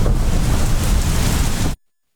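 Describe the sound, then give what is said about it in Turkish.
Heavy rain pours down on a crowd circling the Kaaba during a downpour, a dense, steady roaring hiss that holds level and then cuts off abruptly. “Kabe'nin etrafındaki kalabalık yağışın şiddetine rağmen dağılmadı. Sağanak altında sürdürülen tavaf ortaya bu görüntüleri çıkardı.”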